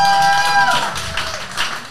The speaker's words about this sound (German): Das ist dein Applaus.